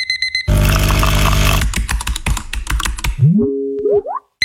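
An alarm clock rings in a dense, brassy burst for about a second, then many quick keyboard-typing clicks follow, ending with a few short tones that sweep upward in pitch.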